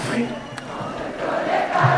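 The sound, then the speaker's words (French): A concert crowd of about 10,000 spectators singing together at a charity show: a dense, steady wash of massed voices that swells a little louder toward the end. “Un grand karaoké collectif spontané quand Mathieu Chédid dirige les 10 000 spectateurs.”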